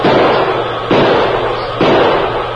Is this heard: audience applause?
no